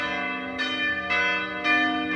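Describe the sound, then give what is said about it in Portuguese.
Church bells ring at 6 a.m. from a parish church dedicated to Our Lady of the Navigators. The rich, harmonic bell tones strike repeatedly about every half second, with each stroke ringing on into the next. “Na hora em que vai badalando os sinos da Igreja Matriz Nossa Senhora dos Navegantes”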